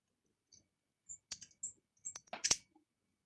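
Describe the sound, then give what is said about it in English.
Faint clicks of typing on a computer keyboard: a few scattered light taps, then a quicker cluster of keystrokes, with no talk. “I'm going to type it out.”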